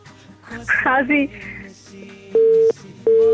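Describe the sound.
Telephone busy tone after a listener's call drops during a call-in: two steady, mid-pitched beeps with a gap between them, following a short burst of voices at the start.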